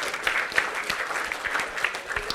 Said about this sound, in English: How about a round of applause for the kids?